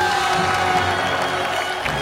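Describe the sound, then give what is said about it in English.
Crowd cheering and clapping as a gathered throng hails newly honoured royals with hands raised overhead, a dense, continuous roar of applause and shouts that holds steady without breaks. “The Narnians clap their hands above their heads.”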